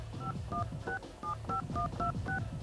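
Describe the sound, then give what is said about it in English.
Touch-tone dialing on an old landline phone: eight short, steady two-pitch beeps in a fairly even rhythm, each separated by a brief gap, over a low background hum. “If you pick up the old phone line over here, and you dial”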